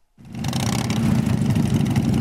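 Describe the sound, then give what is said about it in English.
Motorcycle engines rumble as riders arrive at a military memorial garden in Jacksonville, North Carolina; a loud, low, continuous drone starts abruptly and holds steady, building slightly, with no voices. “About 200 people, many arriving on motorcycles, are gathered at a military memorial garden in Jacksonville, North Carolina.”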